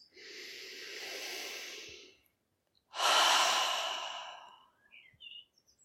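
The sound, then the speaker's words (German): Slow, deep breathing during a guided relaxation exercise: one long airy inhale, a short pause, then a longer, stronger exhale that fades out, with soft breathy sounds trailing after. “Noch einmal einatmen und ausatmen. Und die Schultern dabei fallen lassen. Und noch einmal einatmen und ausatmen.”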